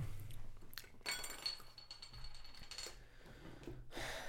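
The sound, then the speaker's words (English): Beers are cracked open with faint glassy clinks and clatter: a few sharp clicks and a short hiss stand out over a quiet, steady background. “Let's crack these beers.”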